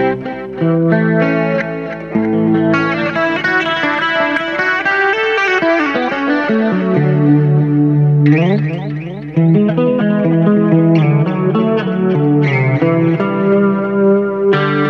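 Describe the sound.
Electric guitar plays through an amp turned up too loud, with the master volume below a quarter, giving a loud, distorted, chorus-laden tone. Sustained chords and ringing notes run throughout, with a sliding pitch run midway and a brief cut before resuming.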